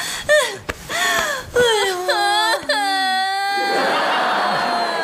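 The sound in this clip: A woman cries and sobs in a run of broken, wavering wails that bend up and down in pitch, split by sharp gasping breaths and trailing into a longer, breathy sob.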